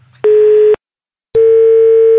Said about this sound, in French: tu nous as raccroché au nez.